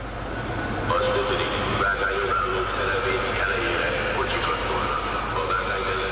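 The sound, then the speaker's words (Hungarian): A locomotive pulls into a station on the Szob line, one of a type of train in service for more than 30 years. It gives a continuous heavy rumble with high, screeching wheel squeal rising over it throughout. “Egy mozdony, ami bejött.”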